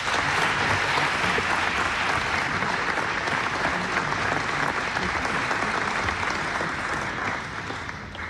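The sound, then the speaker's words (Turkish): Sustained audience applause at a Turkish folk music concert, a dense, even roar of many hands that holds steady for about eight seconds and eases slightly at the end. “Mehmet Erenleri alkışlıyoruz.”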